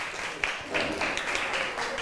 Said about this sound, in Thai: ขอบคุณค่ะปรบมือให้เพื่อนหน่อยค่ะ